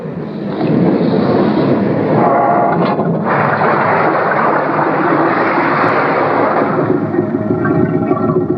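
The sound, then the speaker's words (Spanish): A submarine, the one blamed for sinking a pleasure boat, gives a loud, steady, churning roar of rumbling engine noise and rushing water that holds almost unbroken for over eight seconds, with no voices heard. “Tenía razón, Trixie. Es un submarino.”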